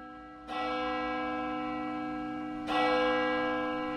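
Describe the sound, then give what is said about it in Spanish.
A church bell in a German city strikes twice, each stroke a bright metallic clang. Its long, ringing hum sustains at moderate volume between and after the strokes. “Escuchen, son 11 campanas en total. De hecho, se escucha muy bien en toda la ciudad”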